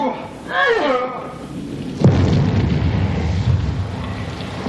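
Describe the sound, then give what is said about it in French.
Bomb explosion: a sudden sharp blast, followed by a heavy, rumbling roar that stays loud and sustained for a few seconds. “Qu'est-ce que c'est? Une bombe. Une quoi? Une bombe.”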